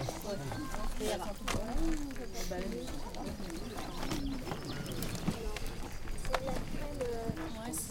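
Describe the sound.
Horses walk along a trail as they head uphill, their hooves making a light clip-clop that runs steadily beneath people talking throughout.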